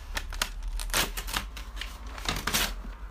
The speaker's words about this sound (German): Ich habe zwar gerade ein Blatt zerrissen